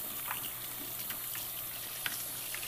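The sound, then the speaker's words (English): Hot water runs steadily over baby bottle parts being rinsed, a faint, even hiss of flowing water with a few soft splashes and one brief sharper knock near the end. “Okay, so before I do the nipples, I'm gonna rinse all this other stuff and set it out to dry.”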